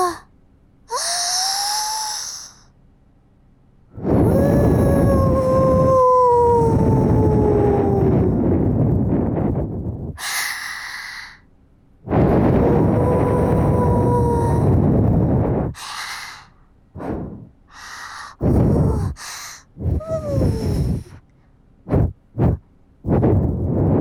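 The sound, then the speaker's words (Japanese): Strong blowing of air into an ear: two long, loud rushing blows lasting several seconds with a faint whistling tone, a shorter blow, then a quick run of sharp, short puffs separated by silence. “お耳の中に残ったちっちゃいのを飛ばしていくだけだね。今度は最初からすごく強く吹くよ。”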